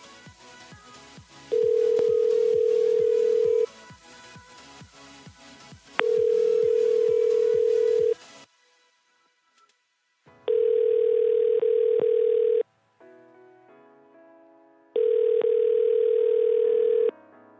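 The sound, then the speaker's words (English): Telephone line tone on a call to a motel in Canton, Mississippi: four long, steady, low beeps of about two seconds each, separated by even pauses, over faint background sound. “If you know your party's room number, you may dial it now or dial 0 for an operator.”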